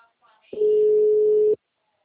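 An unanswered telephone call gives a single steady electronic ringback tone of about one second, clear and alone, with faint sounds just before it.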